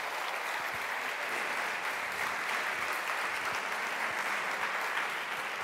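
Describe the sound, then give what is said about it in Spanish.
An audience at a talk on Buddhism applauds, giving a steady, dense patter of many hands clapping at an even level throughout with no voices. “Por favor, un fuerte aplauso al venerable Thubten Wangchen.”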